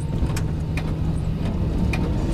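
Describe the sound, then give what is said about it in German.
A car drives along a road early in the morning, giving off a steady, continuous rumble of engine and road noise that stays even throughout, with no voices. “Um 7 Uhr morgens saß ich im Auto und nahm den Weg, den Maya mir beschrieben hatte.”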